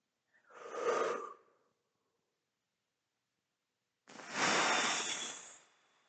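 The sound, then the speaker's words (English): A person takes one deep breath in through an airy, fairly quiet inhale. After a long silent pause comes a louder, fuller exhale that pushes all the air out, with no talk. “So I will one more time breathe in and breathe out and fully exhale everything that I have.”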